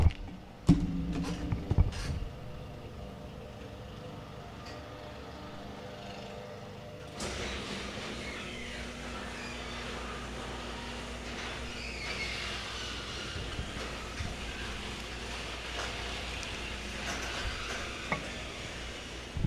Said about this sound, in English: I'm gonna close the garage. Hang on, because the landscaper across the street has begun getting loud.